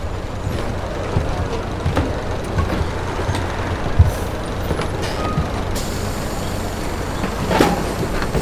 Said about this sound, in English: As we were stepping on to the rumbling bus, waiting to take its passengers north,